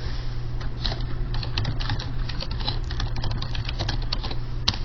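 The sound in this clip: Typing on a computer keyboard produces a steady run of quick, light key clicks at an even pace, fairly faint and heard alone without talk.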